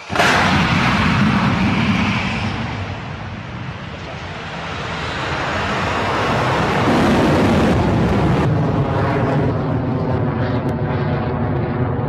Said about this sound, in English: Plus 30 seconds into the mission, Electron is well on its way to space after its 20th liftoff from the pad at Rocket Lab Launch Complex 1. The power of those Rutherford engines, with Electron clearing past 700,